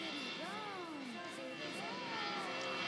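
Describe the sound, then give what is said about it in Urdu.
Airplane racing down a runway and taking off: a faint, steady jet roar with indistinct voices over it. “الحرم school کو لے کر جہاز ایک مرتبہ پھر رن وے پر دوڑ رہا ہے جناب. اور جہاز نے ٹیک آف کیا ہے, آسمان کی طرف بلند ہوا ہے”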